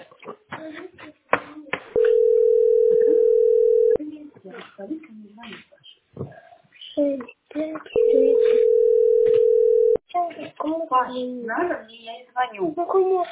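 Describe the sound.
A telephone tone sounds while a call is being placed: two long, steady, mid-pitched tones of about two seconds each, separated by a pause, with voices talking before, between and after them.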